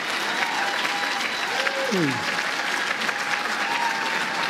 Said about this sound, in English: Let's take President Joe Biden being warmly welcomed.